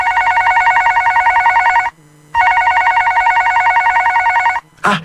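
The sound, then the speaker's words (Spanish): A telephone rings for an incoming call: two long, loud buzzing rings separated by a short pause, with a brief noise at the end. “Te están llamando.”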